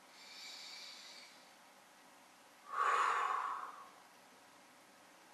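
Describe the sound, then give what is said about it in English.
A single deep breath during a guided tapping session: one audible rush of air lasting about a second, rising out of faint background hiss and fading away. “Take a deep breath.”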